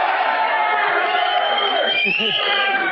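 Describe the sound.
A crowd at a stand-up comedy show yells out a song request, forming a loud, continuous roar of many voices with no pauses. A few lower shouts stand out near the end.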